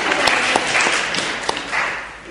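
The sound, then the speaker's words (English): A short burst of applause comes from a gathered group clapping for a woman who has just finished a demonstration. The clapping is fairly loud and lasts about two seconds, with a few sharper claps standing out before it tails off. “I think we should give Mrs. Markham a clap there, shouldn't we?”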